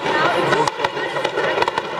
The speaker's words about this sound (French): le centre juif de Bombay vient d'être libéré à coups d'explosifs et de tirs nourris.